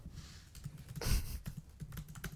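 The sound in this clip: Rapid typing on a computer keyboard, with many irregular key clicks and taps and a louder burst of strokes midway. The typing sounds alone, without talk.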